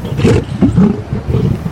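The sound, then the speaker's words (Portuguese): A lion roars in loud, low, rumbling surges, a few throaty bursts with brief dips between them and no talk. “Ah, Sr. Marquês, desculpe, mas esse animal não é um gorila, é um leão.”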